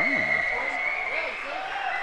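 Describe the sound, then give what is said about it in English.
Audience cheering and applauding at a question-and-answer session, a steady wash of clapping and crowd noise running underneath people talking. “Apparently everyone likes American Soldier. Yeah. Got cheers.”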